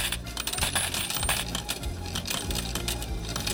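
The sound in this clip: Coins dropping: a continuous run of many metallic clinks and rattles, busy and irregular, at a moderate level with no pauses.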